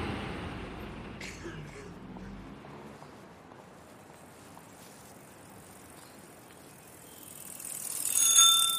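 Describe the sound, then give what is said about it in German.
A bicycle rides by on a city street with a faint steady background hiss, and its bell rings a few bright, high times near the end as the sound grows louder. “Hörst du das? So klingt ein Fahrrad.”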